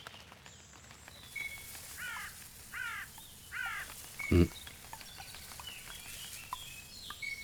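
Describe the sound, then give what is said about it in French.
A great tit calls with short, high, sharp notes repeated in an irregular series, joined by a brief low thump midway. “Charbot, là, par là. Charbot. Mésange charbonnière.”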